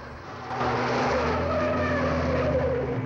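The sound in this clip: A car skids hard around a hairpin bend on a winding road, its tires squealing over a loud, continuous engine roar that swells after the first half second and holds steady to the end.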